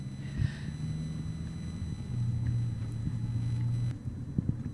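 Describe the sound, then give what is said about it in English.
A car drives through chaotic city traffic on a street: a steady, fairly loud low engine rumble and road drone with a low humming tone, continuous throughout with no talk. “I'm driving in fucking circles.”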